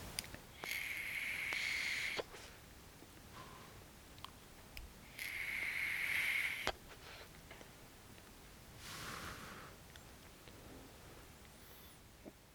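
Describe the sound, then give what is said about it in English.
A person vaping: two long, steady, airy hisses, each lasting over a second, followed later by a softer, breathy rush of exhaled vapor, with quiet gaps between. “Now, excuse me while I pause for a moment here and vape just a little bit.”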